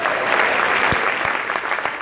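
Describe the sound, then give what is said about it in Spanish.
A church audience breaks into applause, with brisk, loud, continuous clapping and a few sharper claps standing out from the steady mass. “Gloria a Dios. Un aplauso al Señor.”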